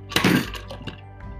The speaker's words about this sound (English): It was a loud crash, boom, when it happened, like this.